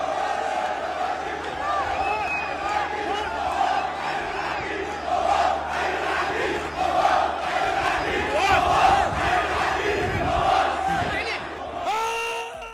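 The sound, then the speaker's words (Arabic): Fans of the Iraqi club Al-Shorta chant for Colonel Al-Mawas, a dense, loud crowd roar of rhythmic shouted chanting that carries on throughout. “الانستغرام يظهر هتافات جمهور نادي الشرطة العراقي الذي كان يهتف حي العقيد المواس”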